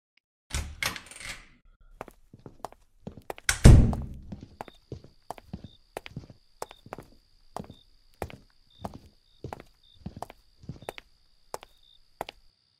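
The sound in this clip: Footsteps of people walking through a park at night: a couple of louder thumps at the start, then a steady run of hard, evenly spaced steps, with a faint high pulsing tone in the background.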